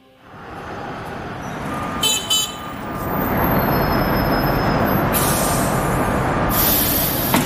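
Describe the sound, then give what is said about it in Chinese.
A tram pulls away from a stop with a steadily rising rumble of motors and wheels. Brief high squeals or tones sound near the start, and a hiss builds through the rest, with no talking. “欢迎乘车， 车辆起步，请注意安全。”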